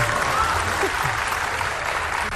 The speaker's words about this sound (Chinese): 谢谢，谢谢朋友们稀稀拉拉的掌声，谢谢。